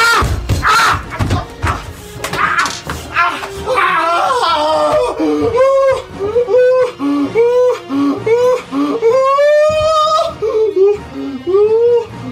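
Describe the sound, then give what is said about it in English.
A man wails in pain after setting his crotch on fire while gaming, suffering second-degree burns; many loud, drawn-out cries and whimpers in broken bursts, with game music continuing underneath. “Now, you may ask yourself, what does this sound like when a South Korean gamer sets his crotch on fire? It sounds like this.”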